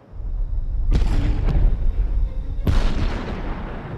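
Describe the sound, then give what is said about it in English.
Lightning strikes the ground in an open grassy field, throwing up sparks. Two sharp, explosive cracks break out over a continuous deep, rolling rumble, with a smaller crack between them. “Now they both run as lightning hits the ground, sending up sparks.”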